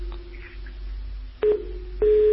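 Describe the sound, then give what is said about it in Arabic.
After a telephone call cuts off, a low line hum carries a faint steady tone. Two louder electronic tone bursts follow, and the second one holds to the end. “طيب قطع اتصال.”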